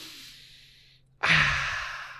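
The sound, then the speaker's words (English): A deep breath drawn through the nose: a faint airy hiss fades to near silence, then a sudden loud rush of breath slowly trails off over about a second. “I want to take a deep breath here through the nose.”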